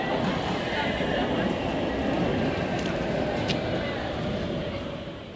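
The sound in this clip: A tram arriving at a stop, a steady broad rolling rumble with faint high squeals that eases slightly toward the end.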